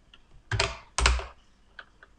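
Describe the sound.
Computer keyboard typing as a server name is entered into a game's add-server menu: two louder clacks close together, followed by a couple of faint, scattered taps.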